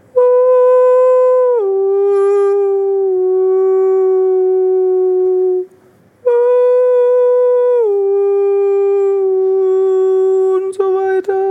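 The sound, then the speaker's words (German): A human voice does a vocal exercise that imitates the calls of rutting forest animals. Two long, loud, howl-like sustained tones each step down in pitch partway through, separated by a brief pause. “man kann es nicht singen nennen, das sind eher prunftartige Waldtiergeräusche, aber dann singe ich so.”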